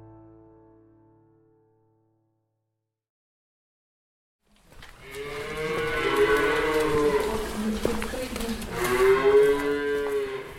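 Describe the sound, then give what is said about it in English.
Cattle moo on a large farm near Chernihiv in northern Ukraine: after near-silence with a faint tone at the start, a few long, drawn-out lowing calls arrive in turn, loud and without talk. “in the middle of October, I went up to a farm near the city of Chernihiv in northern Ukraine, owned by Grigory Tkachenko, a farmer. It's a really big farm, about 1,500 hectares.”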